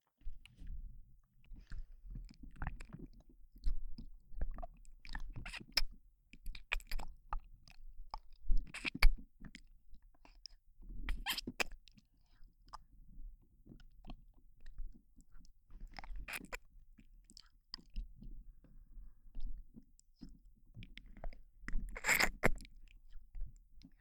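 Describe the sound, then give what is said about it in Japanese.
Close-up licking and wet mouth sounds: soft, irregular smacks and clicks repeating many times at a faint level over a low, quiet background, with no talking. “もっとペロペロしてやるにゃ。”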